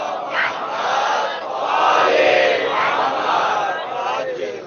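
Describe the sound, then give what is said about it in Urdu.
A religious audience loudly chants the salawat in unison, a sustained mass of voices that rises and falls in a few swelling phrases. “یہاں سے وہاں تک ایک مل کے امام زمانہ کو ہدیہ کرتے ہوئے باواز بلند نعرہ صلوات صلی اللہ”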